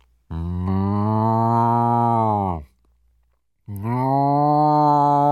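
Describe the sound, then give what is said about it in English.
A voice imitates a cow mooing with two long, loud, tonal moos. The first lasts over two seconds and the second starts after a short silence, both low and steady in pitch. “Well, the cow just went,”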